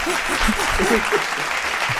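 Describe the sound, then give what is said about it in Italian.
A studio audience applauds in steady, even clapping that fills the full two seconds, with a voice faintly over it. “Grazie agli ascoltatori che ci fanno l'applauso,”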